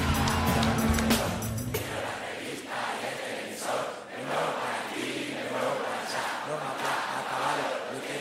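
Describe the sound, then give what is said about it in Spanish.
An election-victory celebration crowd cheers and shouts for the team after a short burst of music, the roar staying loud and sustained with repeated swells of voices. “Un aplauso para este gran equipo.”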